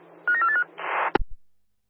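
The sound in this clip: Telephone dialing: a short run of stepped electronic beeps, then a burst of hiss ending in a sharp click, all fairly faint and with no talking.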